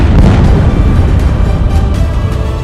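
A bomb explosion sound effect hits as one heavy, loud boom. Its deep rumble rolls on and slowly tapers over a few seconds, with no voices.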